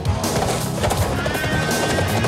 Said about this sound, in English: The regulators remount their steeds on flat ground. Even our horses are crazy.